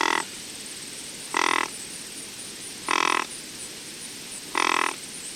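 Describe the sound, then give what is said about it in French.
Soft grunting calls from a female animal to her calf: four short, breathy grunts, each under half a second, evenly spaced about a second and a half apart against a quiet background. “Les autres appels, ça va être les grognements. La femelle va faire des grognements pour signaler à son veau de venir s'alimenter, de venir allaiter”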